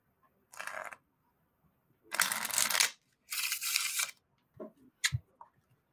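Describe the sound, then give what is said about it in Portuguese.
A deck of playing cards is shuffled in three quick riffling bursts, each a dry papery flutter, followed by a few small snaps and taps. The sound is faint, with no voices. “forma mais bonita de se embaralhar é assim, ó”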